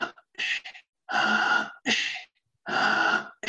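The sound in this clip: Forceful breathing during a breathwork exercise, paced to quicken: a series of loud, rushing breaths in and out, separated by short silences.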